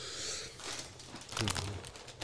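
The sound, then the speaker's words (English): Crinkling of a snack bag and crunchy bites of regular Cheetos, louder bursts of crackle toward the end, with faint voices in the background. “Are you eating hot Cheetos too? Regular Cheetos.”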